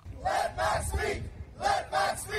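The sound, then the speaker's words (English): Protesters outside the Canadian Museum of History, ahead of a televised leaders' debate, chant "Let Max Speak" in unison, a three-beat shout heard twice in a row with a brief pause between. “A crowd of protesters gathered outside the Canadian Museum of History last Thursday evening before the final televised leaders' debate ahead of Election Day this coming Monday. Their chant, "Let Max Speak."”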